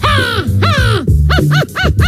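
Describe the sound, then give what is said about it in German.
A person's voice imitates a crow, giving a rapid series of harsh, nasal caws that rise and fall in pitch, repeated many times back to back with no other sounds. “Mein Favorit absolut ist die Krähe.”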